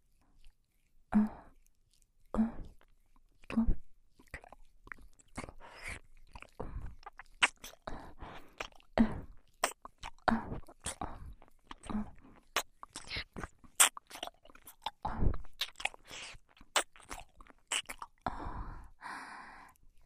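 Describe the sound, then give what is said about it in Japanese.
Gentle ASMR nibbling near the earlobe: many soft, close biting and crunchy mouth clicks in an irregular rhythm, quiet overall, with faint breaths between them. “今度は耳たぶの近くを甘噛みしてみましょう。”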